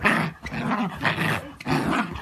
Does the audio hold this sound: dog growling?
yes

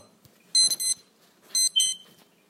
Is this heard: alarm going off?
yes

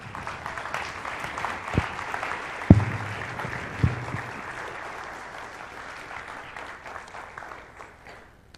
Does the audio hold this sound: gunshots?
no

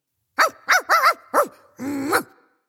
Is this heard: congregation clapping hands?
no

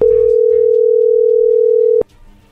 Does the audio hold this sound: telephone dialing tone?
yes

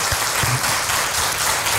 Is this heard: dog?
no

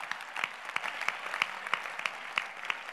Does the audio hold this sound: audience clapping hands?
yes

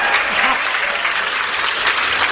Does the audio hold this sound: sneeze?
no

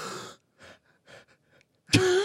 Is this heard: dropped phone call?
no

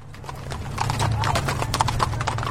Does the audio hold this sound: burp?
no

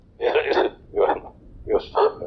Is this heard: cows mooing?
no

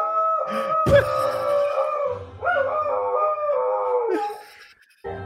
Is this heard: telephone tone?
no

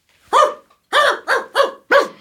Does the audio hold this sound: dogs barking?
yes

